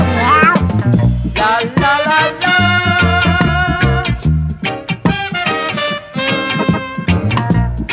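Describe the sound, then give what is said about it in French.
Cat meowing: a rapid, loud string of tonal, strongly harmonic meows that repeats without pause across the whole clip. “Ah, qu'est-ce que c'est? C'est ma chatte.”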